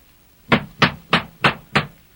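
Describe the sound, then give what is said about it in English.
Loud knocking on a castle door: five firm, evenly spaced knocks strike about a third of a second apart, each sharp and clear with nothing else heard. “So he ran up boldly to the door of the castle and knocked loudly.”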